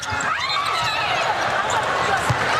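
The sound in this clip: A basketball dribbled on a court during a game that ends in a double-dribble violation: a few faint, low thumps under continuous commentator talk and steady background noise.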